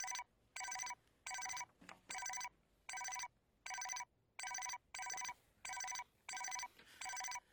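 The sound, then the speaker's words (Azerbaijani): Telephone ringing in a dramatized scene: a long run of evenly spaced bright electronic ring bursts with short silent gaps, repeating steadily at a moderate level with no voices. “Xeyr, xeyr, əl çəkən deyil bu. Elə bilməm bu telefonu çıxarmaq olacaqam.”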